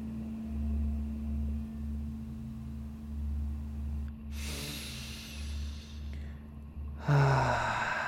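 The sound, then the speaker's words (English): A deep breath, drawn in and then let out, as two soft breathy rushes of air. They sit over a steady low musical drone, with the second breath slightly louder than the first. “Take a deep breath.”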